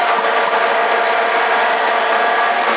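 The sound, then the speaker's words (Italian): A tour bus engine idles with its air conditioning running, parked on the street below a home and heard over a CB radio link: a constant, loud, dense drone with no breaks and no voices. “Ci sono i pullman sotto casa che tengono il motore acceso e lo climatizzatore a palla.”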